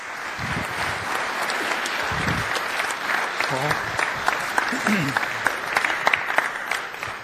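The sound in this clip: Applause from a men's church gathering welcoming a speaker to the front: dense, even clapping runs throughout, with a few sharper individual claps standing out near the end.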